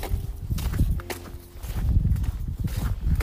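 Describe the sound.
Footsteps slush through wet snow on a slick road, a steady run of soft, squelching crunches with many broad, uneven steps in a continuous rhythm.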